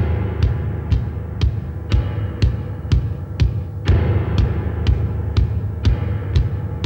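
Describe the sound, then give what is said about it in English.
Electronically altered low grand piano notes under a live kick drum, built for a horror film's attack sequences. Deep droning tones sit beneath steady, punchy kick hits landing roughly every half second. “here's a glimpse into my compositional process for the attack sequences in The Entity. I began with electronically altered low grand piano notes and a live kick drum.”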